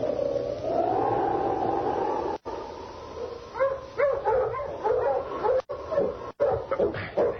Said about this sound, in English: Hey, shut up, you noisy hound.